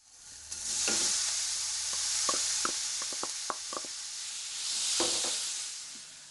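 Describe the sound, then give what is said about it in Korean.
Minced meat with finely chopped ginger is stir-fried in a warm pot and stirred with a wooden spatula: a steady hiss of sizzling runs under many light, irregular knocks and scrapes of the spatula. “알갱이가 작은 소보로를 만들기 위해 나무 주걱으로 잘 저어가면서 볶습니다.”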